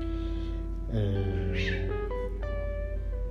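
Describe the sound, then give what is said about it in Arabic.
Cats meow in drawn-out, tonal cries that overlap and shift in pitch, with one meow giving way to the next. “يا جماعه تهدوا بقى، انا بحب القطط بس مش كده.”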